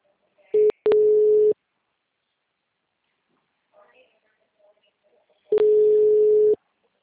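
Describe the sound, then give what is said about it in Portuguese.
Telephone tones from a number dialed by hand with a busy line: a brief beep and then a longer steady tone, a quiet gap with faint murmuring, then another long steady tone. “Eu tô ligando na mão mesmo, na unha, né?”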